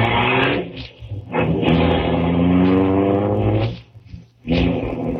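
A car being driven, its engine giving a steady, loud droning hum with rich tones that swells and dips a few times, with no talk over it.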